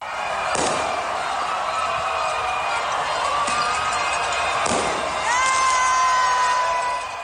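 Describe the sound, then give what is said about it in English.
Crowd cheering and fireworks at a street celebration in Puerto Rico after the governor announced he was stepping down following days of protests: a dense, continuous roar of voices broken by a few sharp bangs. “That's the sound of cheering and fireworks in Puerto Rico via Reuters' Nick Brown.”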